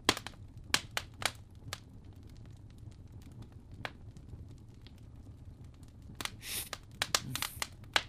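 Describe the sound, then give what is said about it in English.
A fire crackling in a fireplace, faint and irregular, with scattered sharp pops and snaps that cluster more densely toward the end. “I have a fire crackling in the background, by the way, just to add a little bit of ambiance.”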